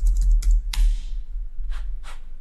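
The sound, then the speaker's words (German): A computer keyboard clatters as a short question is typed into an AI chatbot, with a few sharp key clicks in an uneven rhythm and gaps between them. “Und wenn ich hier nichts finde, gehe ich wieder zurück in ChatGPT und schreibe, gibt es weitere?”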